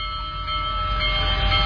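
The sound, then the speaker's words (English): A Big Boy steam locomotive, the largest ever built, passes on a nationwide tour in Illinois, giving a loud, steady rolling rumble with faint sustained tones that grows slightly louder. “For America's 250th birthday, the Big Boy steam locomotive, the biggest of all time, is on a nationwide tour.”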